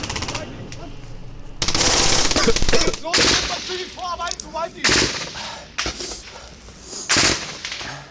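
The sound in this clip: Bursts of machine-gun fire and gunshots from paratroopers fighting in prolonged combat while cut off from their company. A long sustained burst of rapid shots is followed by several shorter, sharp volleys, loud and crackling.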